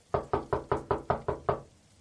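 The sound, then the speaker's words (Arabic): Eight sharp, evenly spaced knocks on a door late in the evening land in a quick, steady rhythm and then stop, with no voices alongside. “من اللي بيدق الباب بهذا الوقت وبين المطر هذا؟”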